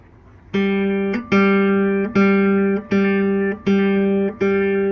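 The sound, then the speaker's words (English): The open G string of a guitar is plucked six times at an even pace, each note ringing out as a full, steady tone that fades slightly before the next. “The G is supposed to sound like this,”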